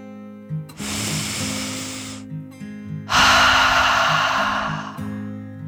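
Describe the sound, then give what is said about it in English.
A deep breath in and then a louder, longer breath out, two broad rushes of air separated by a short pause over soft, low, steady music. “Dragon took a deep dragon breath in and out.”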